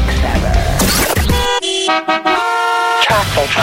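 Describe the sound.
Car horns honk as a traffic sound effect, a few bright, steady blasts with short breaks that follow a stretch of voices and other sound.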